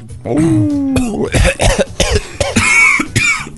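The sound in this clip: Coughing after something caught in the throat: a drawn-out strained voiced sound, then a rapid run of harsh, loud cough bursts and choking gasps, uneven in rhythm.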